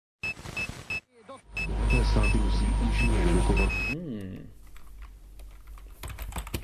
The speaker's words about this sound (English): I've spent the day writing emails to my friends and family back on Earth.